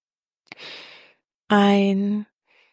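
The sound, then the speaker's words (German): A single breath drawn in through the mouth, followed by a longer, voiced exhale like a sigh, as part of a guided breathing exercise. The soft airy inhale comes first, then the fuller breathy out-breath, and a faint trace of breath at the end. “Ein und durch den Mund ausatmen.”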